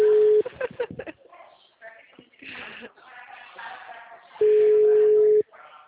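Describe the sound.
Telephone ringback tone during a call dialed on speakerphone: a brief steady mid-pitched tone at the start and another loud, level tone about a second long near the end, with people talking in between.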